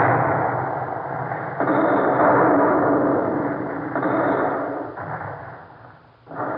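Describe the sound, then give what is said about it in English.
Naval fleet gunfire bombarding forts: a few heavy booming blasts merge into a sustained, deep rumble that swells and recedes. “Admiral de Genray, the right fleet's on the first salvo. Continue firing until the forts are demolished. Yes, sir. Ready! Fire! Fire!”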